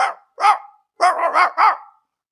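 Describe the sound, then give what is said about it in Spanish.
An old hunting dog barks: two separate barks, then after a short pause a quicker run of about four barks close together, loud and fairly low-pitched. “Por el camino encontró a un perro de caza”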